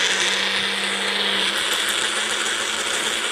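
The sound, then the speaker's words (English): A Magic Bullet blender whirs as it blends salad dressing, giving a steady, loud, even drone with a low hum early on and no voices. “I always shake my magic bullet when I'm blending with it”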